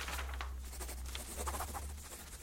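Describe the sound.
A pen scratches across paper while an autograph is signed, producing faint, soft, continuous scratchy strokes with slight variations in texture.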